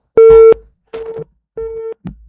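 Telephone line signal of an incoming call on a radio call-in program: three steady, evenly spaced electronic tone pulses, each about a third of a second long, loud and clear with short silences between them.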